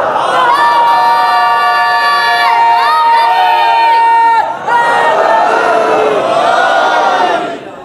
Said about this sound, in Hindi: Mix हो गए आपके सारे नारे, मजा नहीं आया।